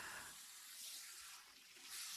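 Hot water running and rinsing over someone, a soft, continuous hiss that swells slightly in places, with no talking.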